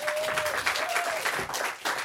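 An audience applauds as guests return to the stage at a live event, a brief burst of dense clapping that stays lively with slight dips in level.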